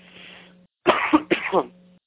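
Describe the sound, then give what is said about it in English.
A person's coughing, held back as much as possible: a faint breathy sound, then two loud, harsh coughs in quick succession, with no talk. “You have to bear with me. I'm trying to hold the coughing down as much as possible.”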